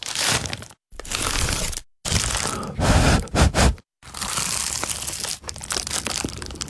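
Crunchy pie is eaten in a series of loud, crackling bites, with short silent pauses between the bursts of crunching.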